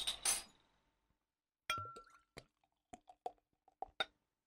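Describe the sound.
Beer bottle being opened and glass clinking: a noisy burst at the start, then a pause, then a series of sharp, bright clinks with short ringing tones, loud and alone.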